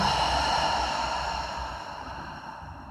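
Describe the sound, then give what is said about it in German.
A deep breath in a guided breathing exercise, heard as one long, airy exhale with a slight voiced tone that fades gradually over about three seconds, with no talk. “Und nochmal, atme tief in diesen Bereich ein. Und aus.”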